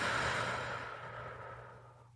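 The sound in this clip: A slow exhaled breath during a guided body-scan meditation: a soft, faint, airy rush that gradually fades over about two seconds, heard alone with no talking.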